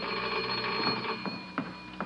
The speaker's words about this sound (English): There's the phone